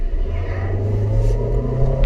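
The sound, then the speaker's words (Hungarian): Car engine accelerating gently in eco mode, a low, steady rumble that builds smoothly without sharp revving. “És eco módban ennyire lazán csinálja. Tehát ez a finomabban gyorsul”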